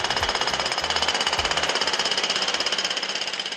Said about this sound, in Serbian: 2012. godine prvenstvo Evrope za rukometašice, počela rekonstrukcija dvorane, o tome svedoči i zvuk bušilica